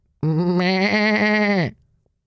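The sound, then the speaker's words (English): A sheep bleats in a field with one long, clear, wavering cry that holds steady, then drops away abruptly into silence. “What can that be? It's the sheep in the field.”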